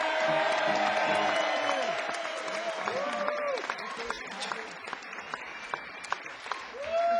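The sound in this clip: Audience applause and cheering welcome musician Dave Mason, formerly of Traffic, to a concert on a boat: dense, sustained clapping with cheers holds at an even, loud level throughout, with short whistle-like tones rising above the crowd.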